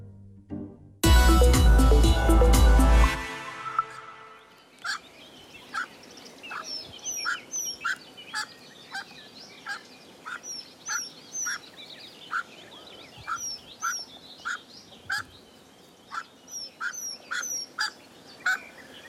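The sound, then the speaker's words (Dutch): A pheasant hen with chicks hidden in tall grass gives soft contact calls: a loud harsh burst at the start, then many short, high, thin peeps repeated irregularly at low volume. “Fazante hen met kuikens die een deels verborgen leven leiden in het hoge gras. Met elkaar communicerend via kleine contactroepjes.”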